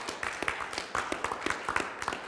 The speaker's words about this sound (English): How about giving Jesus a hand clap of praise?